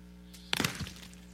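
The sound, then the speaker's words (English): Capuchin monkeys crack hard palm nuts with stones: a sudden sharp knock and a short cluster of cracking impacts, fading into a faint rattle over a steady low hum. “And so the capuchin monkeys crack nuts with stones too.”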